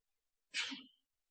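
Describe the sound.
A single sharp sneeze from a person during a religious lecture, a brief burst with a hissy onset followed by a lower voiced release, alone against silence.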